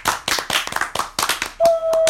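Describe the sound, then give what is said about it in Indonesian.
Hands clapping in quick, irregular bursts of sharp applause for a few seconds, joined near the end by a steady high electronic tone. “Tepuk tangan dulu buat Jupan.”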